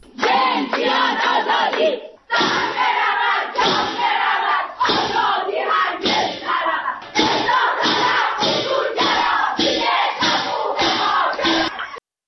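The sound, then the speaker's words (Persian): Prisoners chant protest slogans at a Saturday-evening rally inside a prison, voicing opposition to executions. Loud, rhythmic bursts of shouted unison chanting repeat in quick phrases with brief gaps between them. “بر اساس فایل صوتی که از این تجمع منتشر شده، زندانیان شعارهای اعتراضی سر می‌دهند.”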